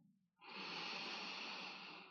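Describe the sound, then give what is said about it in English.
A person takes one deep inhalation during a guided relaxation exercise, a soft, airy breath that starts abruptly, then holds steady and quiet until it eases slightly at the end. “Beautiful. You did so well. Breathe in.”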